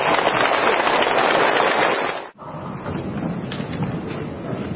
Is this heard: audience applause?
yes